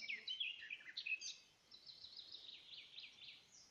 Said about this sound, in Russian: Наступила тишина, ветер кончился, и все стоит, замерло все, и слушает вместе с нами соловья.